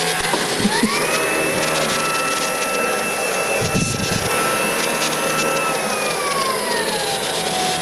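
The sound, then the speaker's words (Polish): A Tefal X-Force Flex 12.60 Aqua vacuum cleaner runs over floor panels with a steady high whine. Its tone climbs early on, holds, then drops again toward the end. “I teraz jak wyjedziemy sobie na panele, to powinien nam się zmienić. O, dokładnie tak. A tylko mnie nie odkurz”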